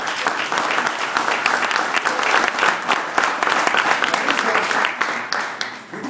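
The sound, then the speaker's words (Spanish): Sustained applause from an audience at a workshop on essential values: dense, steady clapping that holds at an even loudness for the whole clip, with only a slight dip near the end. “Un aplauso para Rafaela.”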